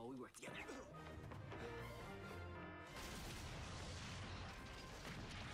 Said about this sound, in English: Well, boom! Building's just blowing up.